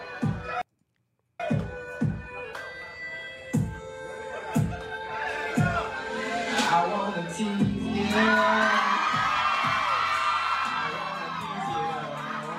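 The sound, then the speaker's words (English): Studio audience cheering and whooping: a series of sharp, regular thumps gives way after about eight seconds to a loud, sustained roar of cheers and yells that carries to the end. “the audience is reacting too quickly”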